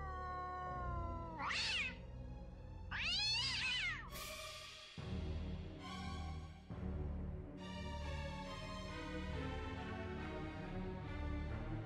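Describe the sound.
A cat meows in a house, two loud, drawn-out yowling meows close together in the first few seconds, followed by a steady tonal sound with no voices.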